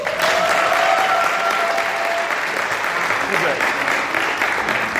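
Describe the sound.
A church audience breaks into loud applause: thick, sustained clapping that stays strong from start to finish, with voices mixed into the crowd noise.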